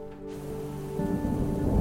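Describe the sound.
Rain falls during a thunderstorm as a dense, steady hiss that grows heavier and louder in the second half, with a low rumbling layer underneath.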